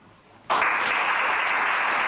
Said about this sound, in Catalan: els aplaudiments més que merescuts per Anna Carbó